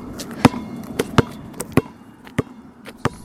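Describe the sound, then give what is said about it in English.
Sharp thuds of a basketball bouncing as people play, several irregularly spaced hits standing out clearly over a low, steady background noise. “You'll also hear the sounds of people playing basketball and soccer.”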